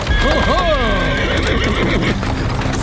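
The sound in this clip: A horse pulling a hired horse-drawn cab whinnies loudly near the start with a wavering pitch, over continuous clattering hooves and a low rolling rumble.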